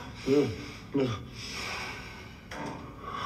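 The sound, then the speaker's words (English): Deep breathing in and out, opening with two short, voiced breathy huffs, then longer, softer airy breaths that swell and fade at a moderate level. “Deep breaths. Yeah. Come on, do that with me now.”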